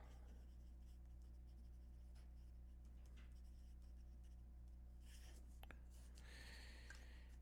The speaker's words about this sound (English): let me write something down real quick because I want to talk about it.